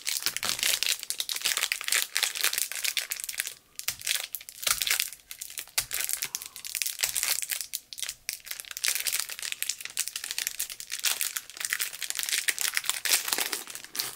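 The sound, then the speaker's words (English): Cellophane wrapping on a Jane Parker fruitcake crinkles and crackles continuously for about fourteen seconds, a dense, bright rustle with small dips in loudness and no talking. “this is what it looks like, wrapped in cellophane.”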